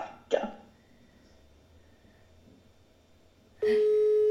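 A telephone call ringing unanswered: after a brief sharp sound and a long quiet stretch, a steady electronic ringing tone starts and holds to the end.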